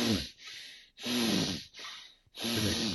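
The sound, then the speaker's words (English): Deep, forceful breathing through one nostril at a time in Hatha pranayama, three loud hissing nasal breaths separated by short pauses, with a rough, snorting edge. “Hatha pranayama, the way I was taught in the Himalayas, is you just cover one nostril”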